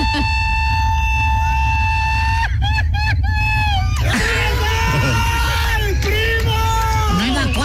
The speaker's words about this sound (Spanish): ¿Tenías más largo el grito?